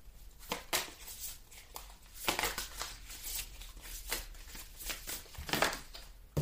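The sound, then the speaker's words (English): Tarot cards with an awkward shape are shuffled by hand in the regular way, giving irregular bursts of dry, papery riffling and slapping. The bursts come at an uneven pace with short quieter gaps between them. “These cards are so hard to shuffle because of how they're shaped. So I'm just going to have to do it the regular way.”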